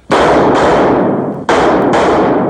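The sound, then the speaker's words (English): Gunshots: a few loud, sharp bursts in two quick pairs, each followed by a long, noisy, fading tail. “as the shots ring out”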